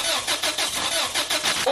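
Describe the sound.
A car engine fails to start: the starter cranks in a loud, steady rhythm of repeated churning pulses without catching. A voice cuts in at the very end.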